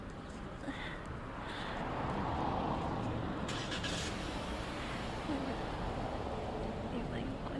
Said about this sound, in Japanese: 車が発車しようとしました。